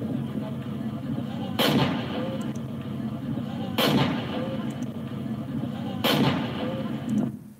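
A tank left behind by US forces in Afghanistan fires in a Taliban video, three heavy booms at even intervals over a constant low rumble.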